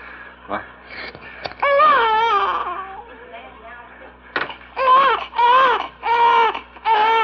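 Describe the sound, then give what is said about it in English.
A two-and-a-half-week-old baby boy cries loudly, captured in a 1951 home recording. His wavering, high wails come in several long bursts separated by brief catches of breath. “And here we have the sound of our little junior boy.”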